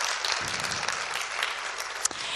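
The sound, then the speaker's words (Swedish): An audience applauds two sisters who volunteered long days in the kitchen, a continuous round of many hands clapping, dense and even at a moderate level throughout. “Det här är två av hjältarna som ger en rungande applåd till dem.”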